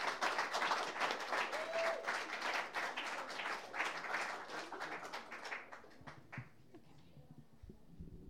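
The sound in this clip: A crowd applauds to greet a female vocal group as it takes the stage. The dense, pulsing patter of clapping thins out after about five seconds to a few scattered claps, then dies away into near quiet.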